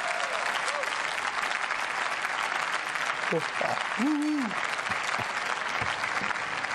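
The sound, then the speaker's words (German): Audience applause on a satirical comedy show: dense, steady clapping throughout, with a few brief vocal sounds rising over it. “Applaus, Applaus, Applaus.”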